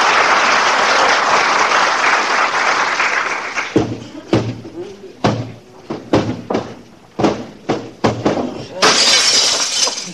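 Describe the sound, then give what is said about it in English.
A hall mirror slips from a hand and shatters: a long, loud burst of breaking glass, then many scattered sharp impacts and falling fragments, ending in another bright crash. “I was just cleaning the mirror in the hall, kiddo. Slipped out of my hand.”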